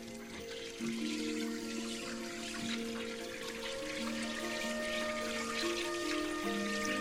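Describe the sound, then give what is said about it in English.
Tap water runs at a kitchen sink, rinsing an egg-shaped, rugby-ball-sized rock crusted with seaweed and barnacles; a steady, unbroken rush of flowing water with no talk. “He examines the egg-shaped rock, which is about the size of a rugby ball, then puts it under the tap to rinse off any loose debris.”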